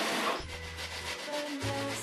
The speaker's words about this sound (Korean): 만드는 건 감자전인데 조리도구는 이게 치즈를 가는 그라인더 맞죠?